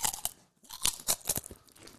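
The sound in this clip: Crunchy food being chewed: several crisp, sharp crunches in an uneven rhythm, with a brief pause between bites, quiet and close, with no talking.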